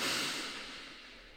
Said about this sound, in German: nimm als erstes einen tiefen Atemzug.